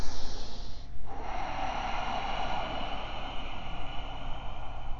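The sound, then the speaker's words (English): Ujjayi breathing drawn through a narrowed throat, a steady, textured hiss of air that runs unbroken for several seconds after a sharper snort-like start, with no talking. “Access your Ujjayi breath. Narrow the aperture of your throat. Generate texture and heat here.”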